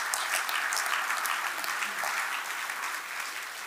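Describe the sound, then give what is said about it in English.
A church audience gives a clap offering during a sermon, sustained, dense applause from many hands that holds steady and full throughout. “Let's give the Lord a clap offering”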